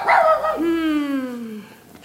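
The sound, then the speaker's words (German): A dog gives one long, drawn-out whining yelp with a clear tone that slides slowly downward in pitch and fades out. “Oh ja, so ein braver Hund. Viel zu brav.”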